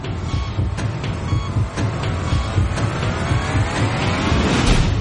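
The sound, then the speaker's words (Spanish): A modern snowmobile with a 999 cc engine runs with a loud, continuous roar that holds steady from start to finish. “Estás en una moderna motonieve que tiene un motor de 999 centímetros cúbicos capaz de superar los 160 kilómetros por hora.”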